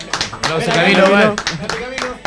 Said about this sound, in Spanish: Un aplauso a Camilo.